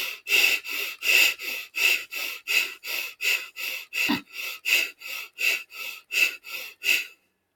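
A seated, upright breathing exercise: many short, forceful breaths pulse in a steady, even rhythm, each a brief sharp rush of air, with no talk over them.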